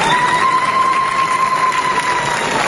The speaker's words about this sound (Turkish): Alkışlar ve zılgıtlarla tarihi yasayı kutladılar.